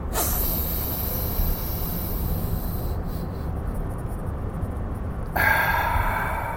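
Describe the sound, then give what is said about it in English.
A deep breath drawn in during a guided breathing exercise: one long, steady, airy hiss of air that runs for several seconds and swells into a brief stronger burst near the end. “All right. 2 more breaths. Deep. Go.”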